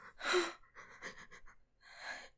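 Heavy, out-of-breath breathing: three loud, breathy gasps with short pauses between them, heard alone without talk.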